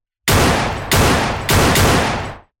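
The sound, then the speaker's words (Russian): Gunshots crack out in quick succession, each loud sharp blast trailing off in a brief rumbling decay before the next. No voices are present. “Прозвучало 4 выстрела.”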